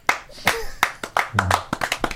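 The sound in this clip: A man claps his hands for himself, a handful of sharp, separate slaps at uneven intervals, with voices talking over them.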